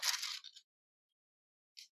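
Paper being lifted off a drawing surface: a soft, crackly rustle of about half a second, then silence, then one more short, faint rustle near the end.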